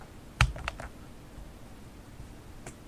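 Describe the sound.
A button pressed on a talking weather station, giving a few faint, quick plastic clicks close together and then a single softer click after a pause.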